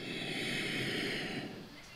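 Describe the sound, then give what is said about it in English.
A person inhaling deeply during a breathing exercise, a soft, steady breathy rush lasting about a second and a half before tapering off, faint and alone. “very nicely. Inhale”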